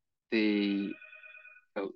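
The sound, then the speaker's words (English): A telephone rings with bright electronic tones, a harmonic burst followed by steady, sustained high ringing and then a short second burst. “there's a phone call. Right, small interruption there, should I say”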